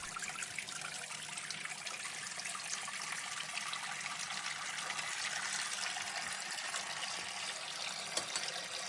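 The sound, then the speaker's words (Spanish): Water runs from a tap into a kitchen sink as it fills, a steady, even hiss and rush that stays at one level throughout, with no talk. “Se acerca con él al fregadero. Lo apoya en un lateral y abre el grifo. El fregadero se va llenando de agua.”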